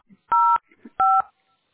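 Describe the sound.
Telephone keypad dialing tones on an automated phone line: two clean, steady electronic beeps, each about a quarter-second long, separated by a short gap, with faint low background noise around them.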